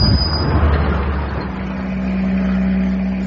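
A van driving along, giving a steady engine drone and road rumble that holds fairly even throughout, with no voices.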